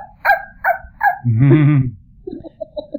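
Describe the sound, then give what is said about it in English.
A human voice imitates a small dog, a chihuahua, barking: three short, sharp yips, then a longer strained, growly bark and a few softer yaps trailing off. “we like to say we're imitating a small dog, preferably a chihuahua, going,”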